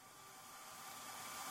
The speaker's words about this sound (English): It has sounds like this, which is a hairdryer.